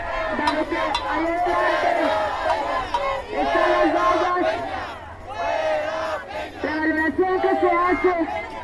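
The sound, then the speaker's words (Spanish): A crowd chants during a protest march at the Hemiciclo a Juárez. Loud voices shout slogans together in several rhythmic phrases separated by short pauses. “Ya estamos aquí justamente en el hemiciclo a Juárez, hemos alcanzado la vanguardia de la movilización. Escuchemos más de esta atmósfera sonora”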